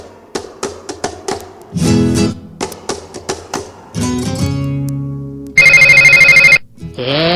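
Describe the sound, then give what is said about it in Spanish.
A telephone rings in one loud, rapid trilling burst with a bright metallic buzz, cutting in after plucked guitar and percussive music. “Está sonando el teléfono y no te diste cuenta.”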